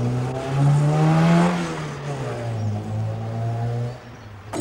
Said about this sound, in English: He watches the car speed off.